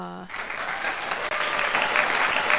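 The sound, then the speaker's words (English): A canned applause sound effect, set off with a yay button, opens with a brief tone and then runs as steady, bright clapping to the end. “I think we can at least hit the yay button for you. We'll count it.”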